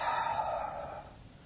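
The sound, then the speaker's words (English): A voice imitates a derisive hiss, one breathy expulsion of air that holds for about a second and then fades, fairly faint and alone. “an object of hissing. That's the Hebrew metaphor of going, that's how we do it. They would just expel their breath and shake their head.”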